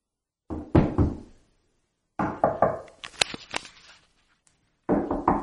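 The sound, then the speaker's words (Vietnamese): Hard knocking on a locked door comes in three rapid, loud bursts of several blows each, separated by short silences, with no voices. “Cửa đã bị khóa rồi, kéo như thế nào cũng không ra. Cô gấp đến nỗi đổ đầy mồ hôi, gõ cửa thật mạnh.”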